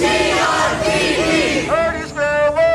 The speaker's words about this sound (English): That's the sound of protests against the Grand Rapids Police Department last night